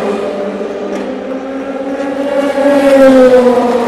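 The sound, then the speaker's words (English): A Ferrari race car, the AF Corse number 50, drives along the start straight as it crosses the finish line. Its engine gives a steady harmonic drone that grows louder in the second half. “here he comes, crosses the line, lights flashing, and the number 50 AF Corse Ferrari with Nicholas Nielsen at the wheel”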